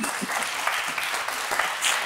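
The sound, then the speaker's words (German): A studio audience applauds a guest on a talk show, with two men clapping frenetically while the rest clap politely. The result is a dense, even patter of many hands at a steady level. “Es gab zwei Herren, die hier gerade frenetisch geklatscht haben. Der Rest war eher höflich.”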